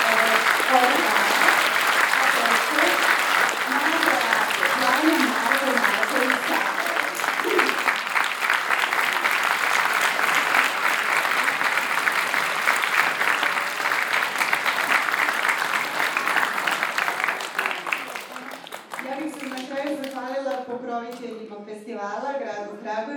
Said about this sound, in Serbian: Dakle, da ćemo jedan veliki, veliki aplauz za tehničke stvari.